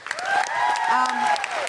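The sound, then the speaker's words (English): A big round of applause from a live audience, with voices crying out in long held tones over the dense clapping, which stays loud and steady for the whole clip. “Chris, big round of applause for Chris.”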